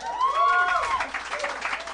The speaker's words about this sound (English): This is a smattering of applause. Yeah, but an enthusiastic small portion of our crowd.